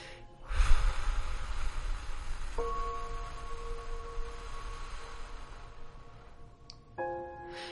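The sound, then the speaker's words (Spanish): A slow exhale through the mouth during a guided breathing exercise, a long soft airy rush that gradually fades over several seconds, with sustained gentle tones entering partway through. “Que tu inhalación sea lenta y suave. Que no te cause esfuerzo o estrés. Y exhalamos por la boca.”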